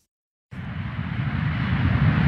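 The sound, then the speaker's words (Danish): Airplane cabin noise on a flight to Malaga: a loud, steady, broad low roar that begins abruptly after half a second of silence and holds level throughout, with no talk. “Velkommen ombord på dette fly, der går til Malaga.”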